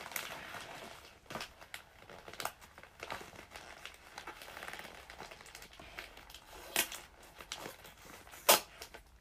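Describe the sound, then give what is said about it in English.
Paper crinkling and rustling while a gift is wrapped, with many soft crackles and a few sharper crinkles and snaps toward the end. “For a moment, I had like a momentary lapse and I forgot what I was actually wrapping and who it was for. And then I was like, oh God, I'm going to have to unwrap it again.”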